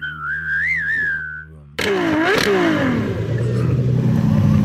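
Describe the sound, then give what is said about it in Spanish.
A car engine, called a Ferrari, revs loudly, its pitch rising and then settling into a steady rough roar. A wavering whistle comes first. “Voy a echar gasolina aquí, carajo. Aquí traigo mi Ferrari.”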